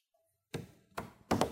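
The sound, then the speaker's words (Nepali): Three quiet knocks sound on a door during a classroom role-play. They are single, hollow raps at uneven intervals, the last one slightly stronger, heard alone with no talk. “आप आइए, दरवाजा बजाएं।”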